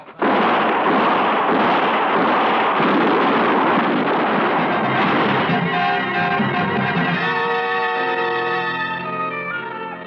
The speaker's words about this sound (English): Shoot them, for Lord's sake, don't miss. Shoot!